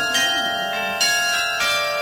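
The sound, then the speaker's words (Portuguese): A small bell chime marks the hour on a radio station: bright, sustained metallic ringing with a few fresh strikes that blend into one shimmering tone, heard alone. “Badalinha da Estação e a hora, na Província FM, 8 horas 59 minutos.”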